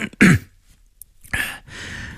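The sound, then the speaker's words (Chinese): A storyteller performs an official's throat clearing in a spoken drama, giving two rough, harsh bursts followed by a longer, sustained rasp. “过了好半晌，卢文蔚才咳嗽一声，缓缓道”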